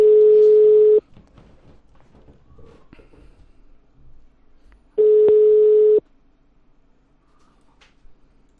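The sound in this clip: Two steady telephone line tones, each about a second long, separated by a pause of several seconds as a number is dialed on a call. Faint low background noise fills the gaps.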